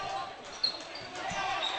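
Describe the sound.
A basketball is dribbled on the court during the third quarter of a school game, with a few dull thuds rising out of steady crowd noise.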